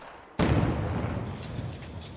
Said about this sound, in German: Zentimeter für Zentimeter sprengen sich die Arbeiter durch den Fels. Ein Waggon Sprengstoff für einen Kilometer.